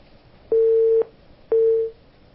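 Telephone busy tone after a call is cut off: two steady, low electronic beeps, each about half a second long, with a short pause between them, loud and alone.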